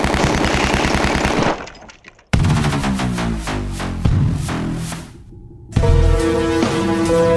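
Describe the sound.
Rapid machine-gun gunfire in an animated chase scene: long bursts of dense rattling fire, cut by a brief pause and a quieter stretch, then resuming loudly.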